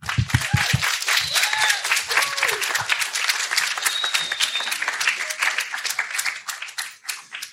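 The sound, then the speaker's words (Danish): A live audience at a festival-week recording applauds as two guests are welcomed onto the stage. The clapping is brisk and crisp, holds steady for several seconds and fades near the end. “jeg håber også, at I øh, er klar på at, at give dem en hånd undervejs i øh, forløbet, hvor vi optager”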